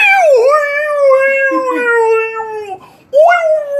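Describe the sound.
A man imitates a dog with his voice, drawing out a loud, wavering howl that dips and then holds steady. It breaks off briefly before a second howl rises again.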